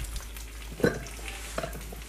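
Two eggs frying in a pan with salt and pepper, giving a soft, steady sizzle broken by a couple of faint clicks, with no talk.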